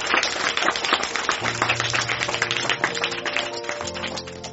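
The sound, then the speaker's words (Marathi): An audience applauds to welcome an honoured guest at a ceremony, with many hands clapping in a dense, steady wash over a low, continuous hum. “Me Gaurav Sahasrabuddhe sir radio परभणीचे RJ यांना विनंती करतो की आपण सरांचं स्वागत करा जोरदार टाळा.”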